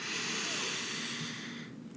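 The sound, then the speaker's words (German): A deep, slow breath drawn in through the nose during a calm breathing exercise, heard as a steady airy hiss that tapers off near the end. “atme mal tief in den Bauch ein und vollständig wieder aus. Atme durch die Nase ein”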